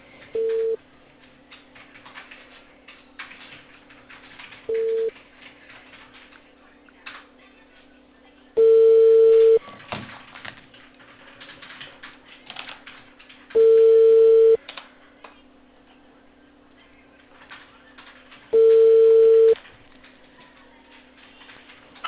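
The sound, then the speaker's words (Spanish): A telephone line tone sounds after a dropped call: five steady mid-pitched beeps spaced evenly about four to five seconds apart over faint, narrow-band line hiss. “¿se cortó la llamada? Sí, se cortó, ahora sí lo puedo escuchar.”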